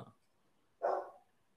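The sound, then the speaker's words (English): A single dog bark, short and fairly loud, sounds on its own after a brief, faint noise at the start, with quiet around it. “Your dog agrees.”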